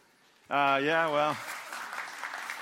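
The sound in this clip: A brief sustained voice rises first, then audience applause takes over. The clapping is a softer, steady rustle that continues to the end.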